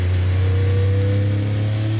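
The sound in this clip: Engine of an 800-horsepower race car accelerating out of a hairpin bend, a loud, dense, continuous droning roar with a strong low tone and harmonic whine, steady through the brief moment.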